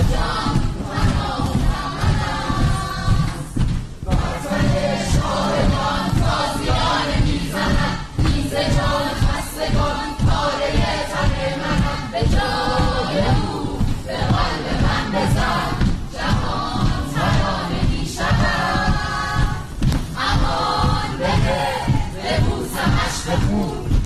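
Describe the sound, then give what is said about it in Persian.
A theatre audience chants slogans and recites poetry in unison partway through a stage play on a Monday. Loud, rhythmic group voices repeat in steady pulses throughout. “اجرای نمایش پردهخانه به کارگردانی گلابه آدینه بر اساس نمایشنامه ای از بهرام بیزایی روز دوشنبه با سردادن شعار و شعرخانی تعدادی از تماشاگران در میانه اجرا همراه شد”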